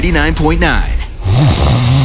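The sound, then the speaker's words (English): Snoring in a mattress advertisement: a rough, low, rattling snore rumbles through the second half, following a brief stretch of voiced, speech-like sound. “At Mattress Firm, we understand there are many problems that can keep you up at night, like snoring”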